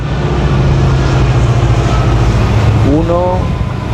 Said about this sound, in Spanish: 2, 3, 4, 5, 6, 7 y así hasta 30 vagones impulsados por dos locomotoras que pasan sin parar y que transportan, vaya usted a saber qué.